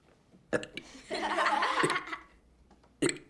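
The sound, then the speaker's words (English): Boys burping: one long, loud, rumbling burp in the middle, with short vocal bursts before and after it. “The other boys burp.”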